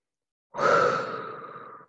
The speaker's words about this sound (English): One more deep breath.